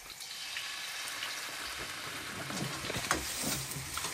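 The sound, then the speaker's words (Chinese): Cattail shoots sizzle while being stir-fried in a wok with chicken stock added, a faint, steady crackling hiss with scattered small pops and spits throughout. “翻炒3分钟， 哦，3分钟。 看看，来再加点鸡汤，”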